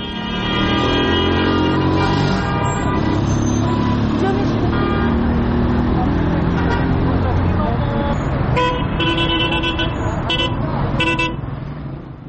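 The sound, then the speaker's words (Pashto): Busy traffic at a car and bus stop in Kabul: steady engine and road noise with car horn toots, loud and continuous, while people talk over it. “زه هم د کابل ښار د موټرونو یو تم ځای ته چې هلته خلکو په ساعتونو د موټر یا ملي بسونو انتظار کوه ورغلم”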